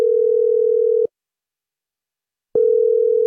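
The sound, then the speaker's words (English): The ringing tone of an outgoing phone call: a steady mid-pitched tone holds for about a second, cuts to silence for roughly a second and a half, then starts again. No voices are heard. “Let's try and call Shem. But if we don't get him? We'll leave a voicemail.”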